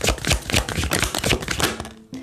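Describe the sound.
Oracle cards being shuffled and drawn make a rapid run of papery taps and riffles, many crisp clicks close together, fairly loud, with no talking.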